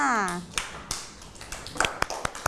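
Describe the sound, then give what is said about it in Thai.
Children and their teacher clapping for a pupil in class; a woman speaks at first, then separate claps ring out, sparse at first and thickening toward the end. “เก่งมากเลยค่ะเอาปรบมือให้น้องข้าวตังหน่อยค่ะ”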